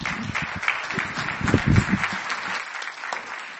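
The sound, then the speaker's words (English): Studio audience applause welcomes a guest onstage, a steady patter of many hands clapping throughout at moderate volume without a clear break. “Let's give Bobby a hand. Welcome him.”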